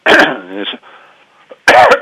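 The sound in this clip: A throat clearing and cough from a tickle in the throat: a loud, rough burst, a low voiced rumble that trails off, then a second harsh cough at the end.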